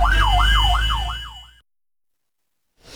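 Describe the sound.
Wailing siren of a fire engine held up by a car blocking its path, recorded on a phone camera: loud, fast repeated rising-and-falling sweeps over a low rumble, then an abrupt cut to silence.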